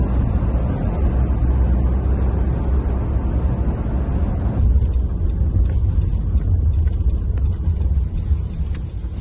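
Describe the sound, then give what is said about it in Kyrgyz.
Steady road and wind rumble from a car driving along the motorway near Vienna, a continuous low roar that holds level throughout with no voices. “Бул сиздер көргөндөй Венанын автомагистралында кетип барабыз.”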